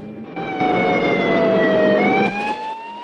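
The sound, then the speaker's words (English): Siren of a police patrol car in pursuit: a loud, sustained wailing tone that drifts slightly lower and then jumps sharply higher near the end. “as the patrol car skids round a corner in pursuit”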